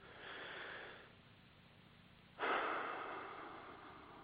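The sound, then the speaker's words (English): A person takes a deep breath, starting with a soft, airy inhale of about a second. After a pause, a louder, sudden breath follows that gradually fades. Both are quiet, with no talk. “I invite you to take a deep breath with me here.”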